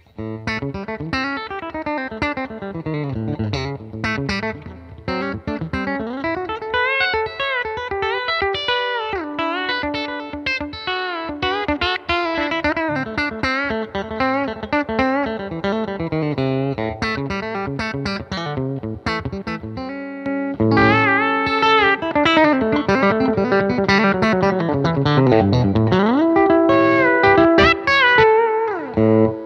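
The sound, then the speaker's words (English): An electric guitar, a Gene Parsons Telecaster with a string bender, plays a run of bright notes and chords on the neck pickup with frequent swooping pitch bends. It is steady at first and grows louder in the final stretch, with no voices. “Sounds great. It's so Telecaster. Does the Tele thing.”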